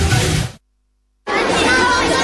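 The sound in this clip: Children's voices chatter in a lively, overlapping babble, heard in two loud stretches separated by a stretch of complete silence.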